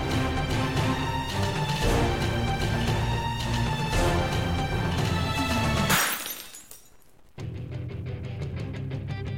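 A loud shattering, breaking crash used as a sound effect bursts over dense, loud music, which drops briefly to a hush before resuming.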